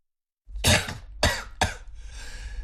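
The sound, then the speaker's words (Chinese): A man coughs three times in quick succession, the first burst harsh and loudest and the last two sharper and shorter. A lower, rasping breathy noise lingers afterward. “马德福咳嗽一声”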